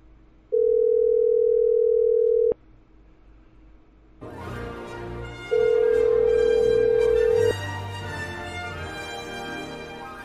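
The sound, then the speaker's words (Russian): A telephone ringback tone sounds while a call is being dialed: two long, steady, mid-pitched beeps, each about two seconds, separated by a pause. The second beep sits over louder background noise. “Набираешь? Да, набираю.”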